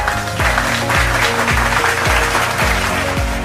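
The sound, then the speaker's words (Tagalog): Students applauding themselves at the start of a lesson: loud, continuous clapping that lasts a few seconds at a steady level. “Palakpakan ninyo ang inyong mga sarili kung handa na kayo sa araw na ito.”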